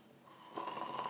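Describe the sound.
Snoring from a person dozing off: a rough, rasping rumble with a steady pulsing texture, growing louder in the second half of the short clip.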